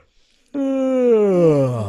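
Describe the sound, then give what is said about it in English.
A voice imitates a descending siren by yawning: one sustained, harmonic-rich tone that starts abruptly and glides steadily downward in pitch, heard alone. “And if you yawn like that, you could even make a descending siren sound, like”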